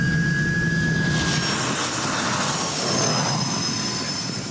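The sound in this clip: A turbine engine runs hot at about 800 degrees turbine temperature, giving a loud, steady roar with a high, thin whine held throughout and no break.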